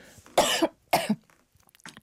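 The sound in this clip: A person coughs sharply after something suddenly catches in the throat: two short, harsh bursts about half a second apart, loud against near silence, followed by a few faint small sounds.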